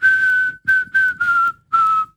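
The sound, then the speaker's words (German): A person whistles a short melody to blackbirds while sitting on a bench in the evening: five clear, high notes, the first held longest, with the pitch drifting slightly lower across the phrase. “auf der Bank sitze und die Amseln anfangen zu trällern, kann ich ihnen eine Melodie vorpfeifen.”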